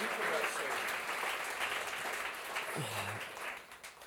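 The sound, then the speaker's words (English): A church audience applauding with hand claps, a dense, sustained patter of many hands with a voice rising briefly near the end as the clapping thins. “Hey, come on, give the Lord a mighty hand clap.”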